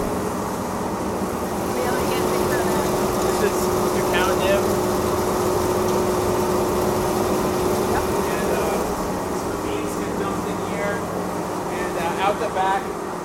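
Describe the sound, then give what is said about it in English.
A machine separating lightly roasted nibs from their shells gives off a steady, dense mechanical whir and rumble that holds level throughout, with people talking over it. “Back of the machine comes the shell. The front of the machine, the nib, the back of the machine, the shell comes out.”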